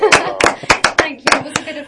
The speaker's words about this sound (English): Well, that deserves a round of applause.